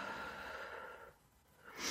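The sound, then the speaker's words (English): Breathing during a guided healing meditation: an airy breath sound fades into a brief quiet pause, then a second breath begins. Soft and alone, with no talk. “So now just take a breath.”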